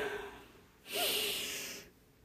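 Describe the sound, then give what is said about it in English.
A single deep breath drawn in during a guided relaxation exercise: a soft, airy inhale lasting about a second, alone and quiet. “I want you to take a deep breath in.”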